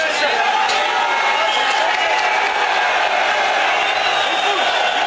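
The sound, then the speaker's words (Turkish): Crowd of football fans cheering at an airport in Istanbul as they welcome an arriving player: a dense, continuous roar of many voices, loud and unbroken, with shouting mixed into the din. “Tezahüratlar yapan taraftarlar havalimanında izdiham oluşturdu. Mason Greenwood taraftarların tezahüratına eşlik etti.”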